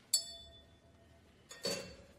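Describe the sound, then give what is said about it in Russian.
A drinking glass being picked up and handled behind a bar gives a sharp, bright clink that rings briefly, followed later by a longer, rougher handling sound. “Кляйншмидт берет бокал и смотрит через него на свет люстры.”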